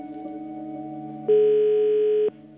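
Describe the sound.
Telephone call tones sound while calling someone back: a single bright, steady beep of about a second rises out of a constant low humming drone, then stops.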